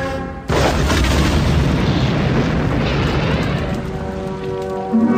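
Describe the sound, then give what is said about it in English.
A huge starship exploding in a science-fiction battle: a sudden loud boom after a brief quiet moment, rolling straight into a sustained, crackling roar that holds steady to the end. “It just exploded.”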